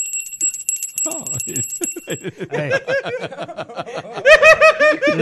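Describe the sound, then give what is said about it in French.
A bell rings at a hotel room door in a comedy sketch, with rapid repeated bright metallic strikes for about two seconds. Laughter and chuckling follow it and grow louder toward the end. “Alors je te raconte, elle sonne à la porte...”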